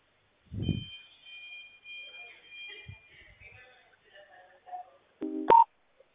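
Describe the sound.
Telephone dialing tones as a call is transferred: a thin, steady high tone holds for a few seconds, then a short, louder cluster of mixed beeping tones sounds near the end.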